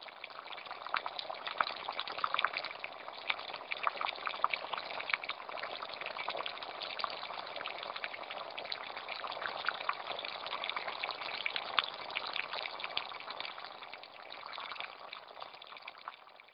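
Water boils over a desert bonfire in winter, a steady, dense bubbling hiss that stays faint and even throughout with no voices.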